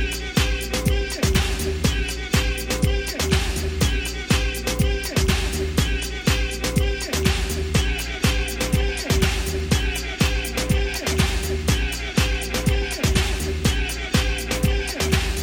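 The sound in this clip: A looped dance beat sampled from a 1991 New York house duo's track, the pulse that became the heartbeat of ballroom and voguing music: dense, loud, regular percussive hits repeating steadily under a sustained tonal line.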